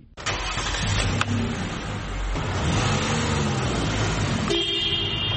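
A car engine starts in a car repair garage in Melbourne, firing up abruptly and then settling into a loud, steady running drone that continues for several seconds.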